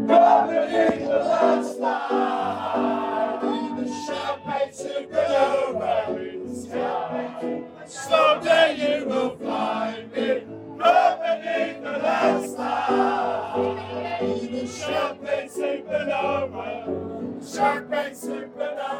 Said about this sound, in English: That horrible sound you hear is from video taken at Lafitte's, Bourbon Street, a bunch of Gen Xers, maybe a boomer thrown in the mix, with money to give a piano player.